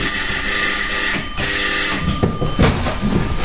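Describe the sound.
A bell rings to summon the butler Ames in a Sherlock Holmes mystery scene, a bright, sustained ringing that persists throughout over a low rumbling clatter.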